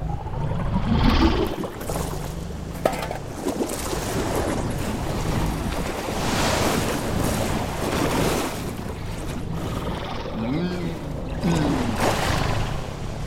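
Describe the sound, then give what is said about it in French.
Sea waves in a continuous, rushing wash of water noise that swells and eases in a few slow surges and never stops. “Bizarre cette vague.”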